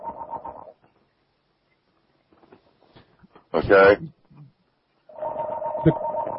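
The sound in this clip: A studio telephone rings in two bursts of buzzy, warbling electronic tone, one at the start and a longer one at the end, with a short spoken exclamation and silence between them.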